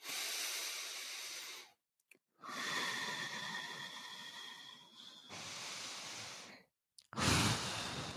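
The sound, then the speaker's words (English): Slow, deep breathing in and out, heard as long airy inhales and exhales separated by short silences, with a louder breath at the end. “here comes the first breath. You're going to breathe in and then you're going to breathe out and just follow me.”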